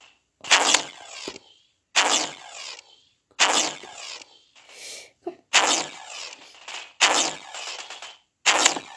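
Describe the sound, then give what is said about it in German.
Gunfire in the Roblox video game, heard as several loud, sharp bursts separated by short silences, each with a quick attack and a brief decaying tail, some coming close together. “Weil hier gibt es nämlich automatisch Schießen.”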